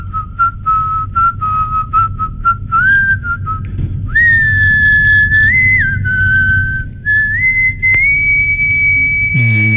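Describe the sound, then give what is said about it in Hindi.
Melodic human whistling, loud and clear. It opens with a string of short staccato notes, then moves to long held notes joined by upward slides, all over a low steady rumble. “और ये सीटियां अभी आज कोई अलग ही definition ले लेती है”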